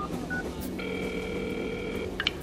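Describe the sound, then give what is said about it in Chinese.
A telephone being used to dial a number gives a faint steady tone that holds for over a second, then a few quick keypad beeps. No voices are heard. “那你还不赶紧打电话呀？”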